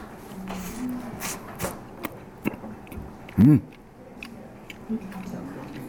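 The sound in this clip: Bites and chewing of warmed, dense raisin bread come as soft, irregular clicks and squishes, and a brief murmured voice hums partway through.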